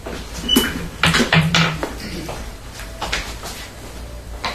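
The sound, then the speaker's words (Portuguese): A sliding kitchen window being shut, giving a few quick scraping knocks and thuds in the first two seconds, then a quieter stretch with faint background noise. “fecha o vitrô da cozinha, por favor”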